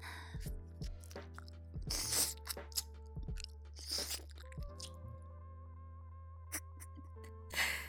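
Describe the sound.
Crunching and chewing sound effect of a creature eating a person: a few sharp, wet crunches spaced well apart, faint over a steady low hum and sustained tones.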